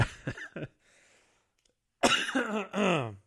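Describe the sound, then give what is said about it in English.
Coughing: two short, harsh bursts, then a quiet pause, followed by a longer, louder, rasping voiced bout of coughing. “sending me into a coughing fit here”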